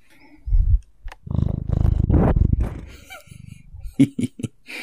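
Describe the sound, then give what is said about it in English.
A cat purrs in a bedroom with a low, rapidly pulsing rumble lasting over a second. A short low burst comes before it and brief sharper sounds follow at the end. “She's purring. She's a good kitty.”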